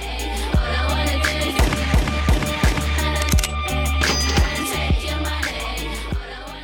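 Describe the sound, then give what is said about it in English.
Sampled gunshots punctuate a song: sharp percussive bangs recur in a steady rhythm over a dense, loud beat and bass line, with no talking. “Finally, of course, we have those samples of the gunshots.”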